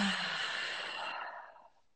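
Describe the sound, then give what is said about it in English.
A single long breath in a seated breathing exercise, sounding mostly like a breathy sigh-like exhale that starts strongly and fades out over about two seconds, with no voice. “And I usually just like to start with one cleansing breath in through the nose and one out through the mouth.”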